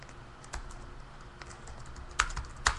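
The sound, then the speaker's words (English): Fingers type on a computer keyboard in a few sparse, faint keystrokes, with a couple of sharper clicks near the end. Quiet background hiss fills the gaps, and no one speaks. “I'll take this link and I'll throw it up on Twitter right now for my peepos.”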